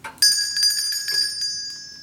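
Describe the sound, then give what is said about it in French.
A small hand bell is rung at a door, giving a bright, high metallic ringing. A few quick shakes keep it sounding continuously for about two seconds, with no talk over it. “Arrête un peu de sonner la clochette et tire un peu plus tôt sur la petite ficelle qui pend, comme d'habitude.”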